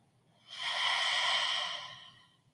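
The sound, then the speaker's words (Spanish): A single long, deep breath of a nose-in, mouth-out breathing exercise: a soft airy hiss swells, holds steady and slowly fades over about two seconds, with no voice. “Y nuevamente inhala profundo. Inhala por tu nariz. Exhala por la boca.”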